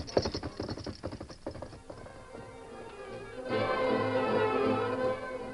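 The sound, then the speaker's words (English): Horse hooves clip-clop rapidly as a rider gallops away on horseback. A quick run of sharp hoofbeats fills the first two seconds, then thins out. “When Tonto learned nothing more, he rode away to the Harper Ranch, where the Lone Ranger was waiting. Get him up, Scout!”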